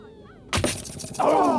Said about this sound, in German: Und da, Paris schleudert die Lanze.